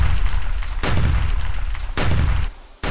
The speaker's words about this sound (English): With little time to aim, he unloaded at least a dozen shots at the retreating Carlos.